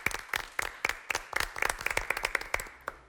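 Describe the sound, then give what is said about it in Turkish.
Applause for a great actor at a quiz show, a ragged burst of hand claps with sharp uneven slaps throughout, fairly faint and without talk. “Büyük ustayı önce alkışlayalım.”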